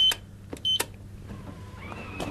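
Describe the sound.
Coins go into a food vending machine in a residential area of Bad Buchau that sells canned sausage, noodles and milk, and a number is selected: a few sharp clicks and clunks, short beeps, then a steady electric motor whine.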